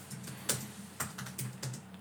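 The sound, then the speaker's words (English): Computer clicking while someone searches Google: a few sharp keyboard or mouse clicks, irregularly spaced, with softer tapping between them over a steady low hum. “Hold on. I'm click, click, click, click, click.”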